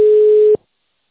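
A telephone line tone while a call is being transferred: a single steady, mid-pitched electronic beep lasting about half a second, then abrupt silence.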